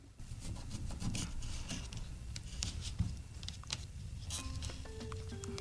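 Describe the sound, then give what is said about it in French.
A knife slicing a round of lime for a sparkling vodka lemonade cocktail: quiet, gritty sawing and rubbing strokes broken by a few soft taps. “je vais couper, excuse-moi, ma rondelle de lime”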